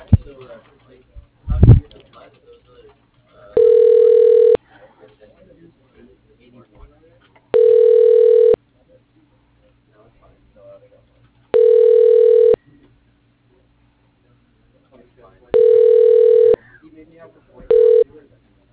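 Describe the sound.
Telephone ringback tone sounds while a call is transferred: four steady, low buzzing rings of about a second each at even intervals, then a fifth cut short, with faint line noise between.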